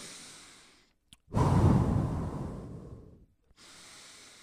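Deep, slow meditative breathing: a soft inhale and a brief pause, then a long, strong exhale that fades gradually over about two seconds, followed by the start of another quiet inhale.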